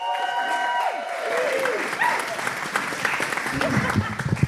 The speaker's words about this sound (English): Can we give a warm welcome, please, to Eamon Mara?